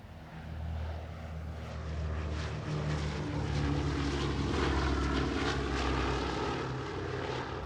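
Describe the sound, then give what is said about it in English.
A B-29 propeller airplane takes off from Tinian Island. The engine roar swells during the first second, then holds loud and steady with a dense droning throb. “O-245. Takeoff. From Tinian Island, the Enola Gay heads north by northwest toward the Japanese islands over 1,500 miles away.”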